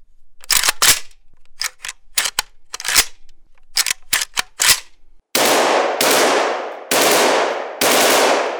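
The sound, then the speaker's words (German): Kalashnikov rifle gunfire in a video game: several clusters of sharp, loud shots, followed by four heavier blasts that each ring out and decay slowly. “Ja, ich probiere eine Bombe und einen Kalaschnikow.”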